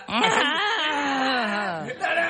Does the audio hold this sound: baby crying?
yes